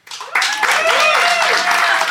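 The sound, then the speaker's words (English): A live studio audience in Phoenix applauding: a softer start that swells suddenly into loud, sustained clapping, with crowd noise mixed in. “So I'm going to allow our live Phoenix audience to make the call.”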